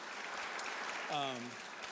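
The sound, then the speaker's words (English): An audience gives a round of applause, with steady, dense clapping throughout and a brief cheering voice rising above it near the middle. “Let me just give them a round of applause and thank them for opening the space to us.”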